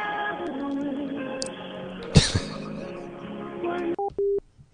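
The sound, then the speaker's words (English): A telephone call is hung up. Narrow, phone-line talk stops abruptly and is followed by two short electronic beeps. “All right, I guess I can hang up. I'm not going to get Robin back on the phone.”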